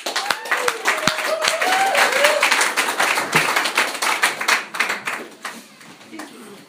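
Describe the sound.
Applause from a meeting audience welcoming a speaker to the front: steady, crisp clapping from a modest group, with a voice briefly heard early on, tapering off toward the end.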